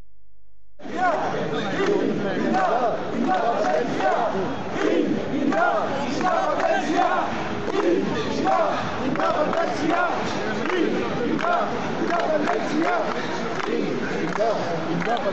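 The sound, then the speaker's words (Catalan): Crowd ambience on Passeig Lluís Companys in Barcelona, where residents gathered to hear the president of the Generalitat; a steady, dense hubbub of many voices chattering and calling begins after a moment of quiet. “Arrenquem aquest repàs amb el so ambient del Passeig Lluís Companys a Barcelona, on diferents veïns dels pobles de l'Eix 59 es van acostar per escoltar el president de la Generalitat.”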